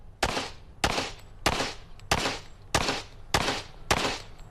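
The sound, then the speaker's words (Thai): Seven loud, sharp gunshots from a gun fired at a target, evenly spaced at a steady rhythm. Each crack is followed by a brief, decaying tail. “ผมอยากถือปืนแบบนี้มาตลอดนะได้ยินว่าทำให้ข้อมือแตกได้เลย”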